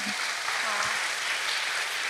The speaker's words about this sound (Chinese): 我们拍手欢迎。